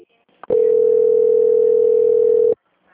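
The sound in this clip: A telephone transfer tone while a caller is on hold: one steady, mid-pitched beep of about two seconds that starts and stops abruptly, preceded by a soft click.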